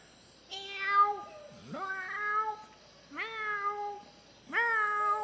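A person imitates a cat's meow with four drawn-out, tonal mews. Each is fairly loud and separated from the next by a short pause.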